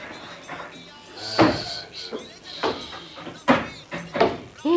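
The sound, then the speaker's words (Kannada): A chair is brought over and set down, giving several wooden knocks and scrapes spaced a second or so apart over a voice and a steady background. “ಅಕ್ಕೋ, ಕುರ್ಚಿ ತಂದು ಹಾಕಿದ ಸದ್ದು ಕೇಳು.”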